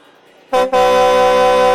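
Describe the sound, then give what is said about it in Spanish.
A horn blasts loudly with a steady, harmonic-rich tone after half a second of quiet, cuts out briefly, then holds on strongly to the end. “¡Pita una vez si estás listo para iniciar!”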